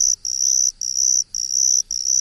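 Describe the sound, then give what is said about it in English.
Sphagnum ground cricket song: a high, thin buzzing trill that holds one pitch and is broken into short bursts by brief gaps, heard alone. “Doesn't sound like the eastern striped cricket. No, it's more like the sphagnum ground cricket.”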